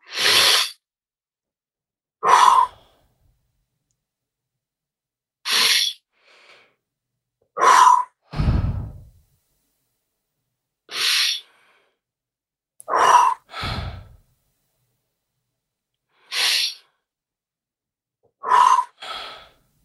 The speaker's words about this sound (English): We're taking five deep breaths.